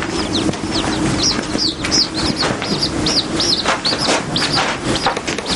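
A small chick peeps inside a cabin, giving rapid, high, thin chirps that repeat many times over a steady, noisy background.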